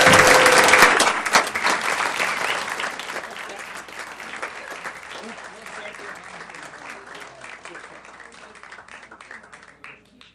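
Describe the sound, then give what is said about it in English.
Applause breaks out after a mayor's proclamation of Portland State University Day in Portland, Oregon: dense, sustained clapping starts loud and fades gradually over about ten seconds. “Let's give him a hand.”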